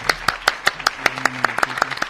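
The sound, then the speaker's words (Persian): Sharp, regular claps from an audience honouring a music group at a singing contest with judges, forming a steady, evenly spaced run of many bright hand slaps across the whole stretch. “به افتخار این گروه هم لطفا دست بزنید.”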